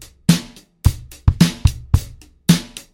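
A drum groove on a drum kit mixes deep thumps with crisp, sharp strikes in a sparse, syncopated pattern of loud hits and a few softer ghost notes, played alone without other instruments.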